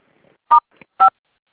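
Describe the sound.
Two short touch-tone keypad beeps sound while conference call lines are unmuted. They are clear, evenly spaced electronic tones, each lasting about a tenth of a second, with a faint click between them.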